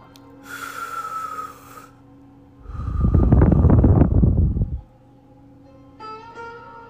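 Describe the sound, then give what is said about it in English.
A deep breath taken during a guided healing session: one long, loud, airy rush of breath fills the middle, with a softer breathy sound earlier, over a faint steady hum and no talk. “Let's go ahead and take a deep breath. 3 times.”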